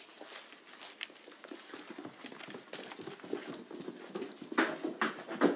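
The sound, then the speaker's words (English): Hooves of dairy goats clatter across the barn floor as they come in for evening milking: many quick, irregular taps and scuffles at a moderate level, growing denser toward the end, with no talk. “Here they come. Come on, goaty goaties, milking time.”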